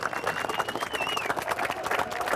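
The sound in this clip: A carnival crowd cheers and claps in a busy, continuous wash of hand claps and voices, with a thin whistle-like tone rising briefly above it.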